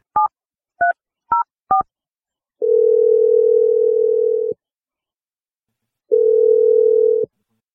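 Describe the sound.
A telephone number being dialed on a touch-tone phone: four short two-tone beeps, then two long, steady ringing tones separated by a gap of silence.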